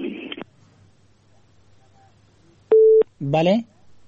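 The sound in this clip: A single steady telephone tone sounds after a radio call-in listener's line is cut off. A brief voice-like sound follows it, with quiet background before.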